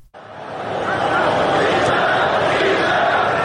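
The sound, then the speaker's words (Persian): Football spectators chanting 'bisharaf' during a match, a loud massed crowd roar that swells in over the first second and then holds at a sustained, heavy level. “مثلا این صدایی که الان می‌شنویم مربوط به گزارش انگلیسی مسابقه است که صدای بیشرف بیشرف تماشاگران خیلی واضح به گوش می‌رسه.”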